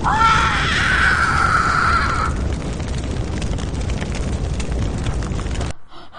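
Fire spreading through a field, woods and barns gives off a loud, steady roar with a shrill whistling tone riding over the first third. The roar holds for several seconds, then cuts off abruptly near the end.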